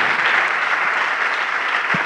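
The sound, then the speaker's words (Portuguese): Congregation applause in a church as people come forward: a continuous, fairly loud patter of many hands clapping at an even level throughout the short stretch, with no talk over it. “Vamos aplaudir ao nome do Senhor Jesus por cada vida que está chegando.”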